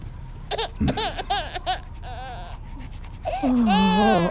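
A baby cries and babbles in short, high, wavering bursts, ending in a louder, sustained wail.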